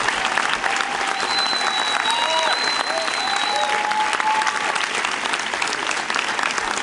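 A church audience applauds on its feet to welcome a guest with sustained, dense clapping that stays loud and even throughout.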